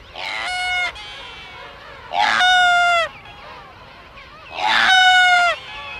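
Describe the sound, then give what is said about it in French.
Sooty albatrosses calling on a clifftop: three loud, drawn-out nasal cries, each a bright harmonic call under a second long, separated by pauses of about a second or more. “Et alors, ce bruit de hocher, en fait, c'est le chant d'un des oiseaux les plus majestueux de l'île. Ce sont des albatros, les albatros fuligineux.”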